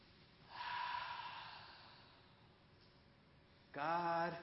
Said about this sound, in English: Take a deep breath, everybody.